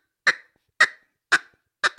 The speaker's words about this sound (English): And that's just a single cut, cutting it off with my throat.